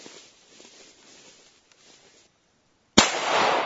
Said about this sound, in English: The gunshots will get louder, but maybe you'll hear the ping of me hitting the target, hopefully. Yeah, that shoots nice.